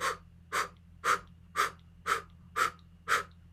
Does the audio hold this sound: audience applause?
no

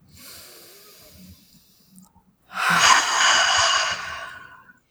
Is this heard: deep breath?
yes

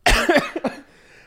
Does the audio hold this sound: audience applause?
no

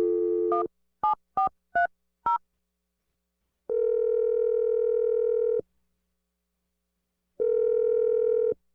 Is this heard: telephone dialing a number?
yes

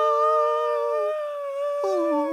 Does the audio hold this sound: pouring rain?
no

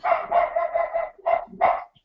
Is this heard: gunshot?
no

